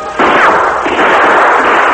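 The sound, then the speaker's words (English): Gunshots fired at an iron-plated door: a sudden loud blast and a second sharp hit blur into a sustained, harsh, ringing roar that stays loud to the end. “The outlaw roared. "I'll kill you for that!" He triggered shots at the door.”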